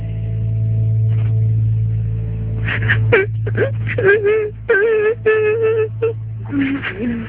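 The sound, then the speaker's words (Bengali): A baby crying in short, wavering, high-pitched wails that come in many broken bursts, after a few seconds of steady low hum with no crying. “বাবু কান্না করছে হয়তো, একটু দেখে আসো না।”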